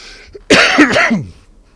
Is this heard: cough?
yes